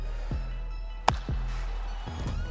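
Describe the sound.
A basketball bounced before free throws in a one-on-one game, a few dull thuds over a steady low hum.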